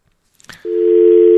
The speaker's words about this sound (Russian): Я вас взял, а уже гудок получился.